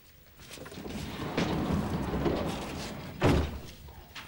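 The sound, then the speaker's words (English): A sliding stall door is shut in a horse stable, heard as a low rumbling scrape that ends in a single loud, solid thud near the end. “leads the horse into a stall and slides the door shut.”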